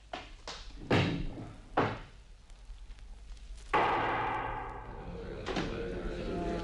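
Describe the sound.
A window being opened in a castle: a few hard wooden knocks and thuds, then a long scraping slide that trails off into a rattle.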